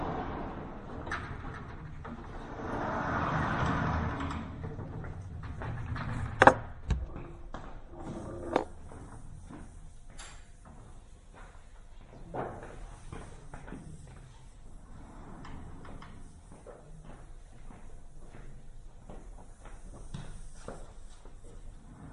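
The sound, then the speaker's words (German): A blackboard is wiped clean during a maths lecture: a long series of rubbing strokes of uneven strength, mostly soft, broken by a few sharper knocks. “Und jetzt wische ich erstmal raus. Ja, jetzt wische ich das.”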